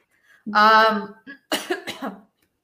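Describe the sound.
Coughing from a tickle in the throat: one drawn-out, throaty cough, then a quick cluster of a few shorter, rougher coughs before silence.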